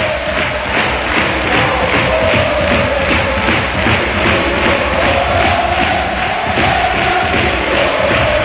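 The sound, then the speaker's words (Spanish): Huelva football supporters cheering in a stadium: a dense, loud roar of many voices throughout, with a sung chant line riding steadily above the noise. “Escuchamos la afición.”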